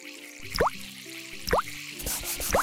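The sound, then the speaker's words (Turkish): Water drips while hands and face are washed before bed. Three clear, evenly spaced drops each give a quick plink that rises in pitch, fairly quiet over a soft steady background. “Tavşan Neşeli ellerini, yüzünü yıkadı, dişlerini fırçaladı”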